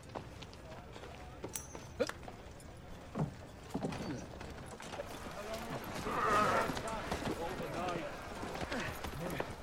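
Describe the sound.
Horses' hooves clip-clop steadily as the animals are led off to be tied up, a loose uneven rhythm of hoof strikes running beneath men talking throughout.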